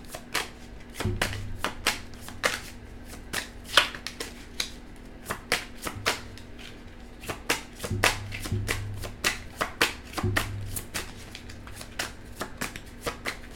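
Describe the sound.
Tarot cards are shuffled by hand in many crisp, irregular riffling snaps and slaps that come in uneven bursts, fairly faint and with no talk.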